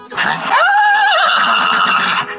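Horse neighing while its tail is being brushed: one loud, high, wavering whinny lasting about a second, standing out over background noise.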